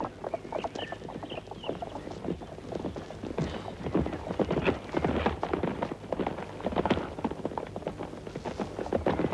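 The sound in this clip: A horse carries a boy rider, its hooves clip-clopping in a long, steady run of many quick beats.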